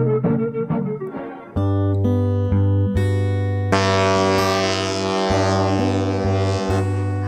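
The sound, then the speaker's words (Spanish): Deep ship horn from an arriving ship, loud sustained low tones with rich layered harmonics that begin after a quieter opening and shift in strength through several overlapping blasts. “El barco, sí, el barco que llega, sí. El barco que va, no nos pongamos melancólicos, no nos pongamos depende de qué puerto, claro, si se va o llega, ahí está.”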